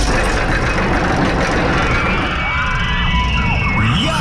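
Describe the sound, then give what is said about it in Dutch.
A roller coaster at an amusement park runs on its track as a loud, steady rumbling roar, with faint wavering tones drifting over the dense noise throughout. “als je de achtbaan hoort rijden”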